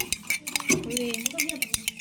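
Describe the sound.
A spoon stirs melted chocolate, egg and sugar together in a mug, giving a run of light clinks and scrapes against the sides, with a voice briefly heard over the stirring.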